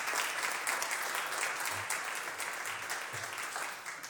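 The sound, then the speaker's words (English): Applause fills the California State Senate chamber as members and guests clap for honorees. The clapping is dense, steady and fairly loud, running unbroken for the whole stretch before easing slightly at the end. “Please join me in a round of applause to celebrate all of their hard work.”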